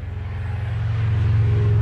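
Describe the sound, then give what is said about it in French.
A car passes on a road not far behind, making a deep, steady rumbling drone that swells slightly over under two seconds, with no voices. “c'est qu'il y a une voiture qui vient de passer.”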